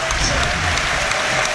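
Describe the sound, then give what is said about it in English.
Rugby fans applaud a player as he leaves the pitch during a Harlequins game. Loud, dense, sustained clapping from a large crowd holds steady throughout. “It looks, by the way, the fans are applauding as if he might be leaving as well, doesn't it?”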